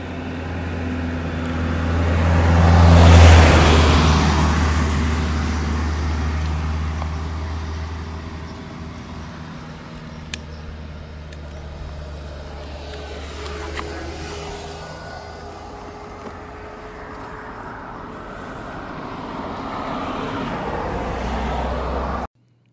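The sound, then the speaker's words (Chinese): Cars pass on a road with engine and tyre noise. One loud pass swells early and fades into a quieter steady roadway hum, and fainter passing vehicles follow later. “不知道大家有没有听出来说那个车子跟车子过来之间它其实基本上是完全没有声音的，它有的声音都是汽车的引擎声，然后还有那个汽车在跑的时候轮胎的那个声音”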